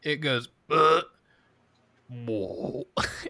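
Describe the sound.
A voice imitates a burp for a creature stuffed inside a bag: a few throaty, croaking voiced bursts separated by short pauses, fairly loud and alone.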